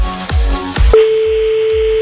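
Ringback tone of an outgoing telephone call: a single steady, sustained tone that starts partway through and holds to the end, with low rhythmic thumps beneath it.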